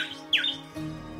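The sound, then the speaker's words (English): A little bird sings in a garden, giving a few brief, high chirps in quick succession. “It was a little bird who sang.”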